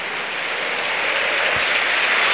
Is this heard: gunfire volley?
no